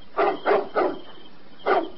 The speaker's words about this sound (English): Seems like you're barking at something up that tree. There's no cats around here.